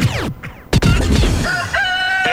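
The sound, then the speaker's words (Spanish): A rooster crows loudly in a drawn-out, strained cock-a-doodle-doo with no voices around it. “El gallo ya está de regreso.”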